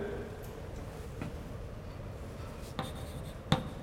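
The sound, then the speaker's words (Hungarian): Writing on a board during a lecture about antenna losses: faint, continuous scratchy strokes, with a few sharp taps standing out near the end and no talk over them. “Inkább ide fölé írom.”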